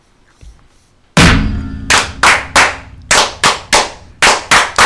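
Brethren in a Masonic lodge clap in unison for the ritual "fire": after a short quiet lead-in, one loud sharp clap lands, then a rapid series of crisp synchronized claps follows in quick groups, each ringing briefly before the next.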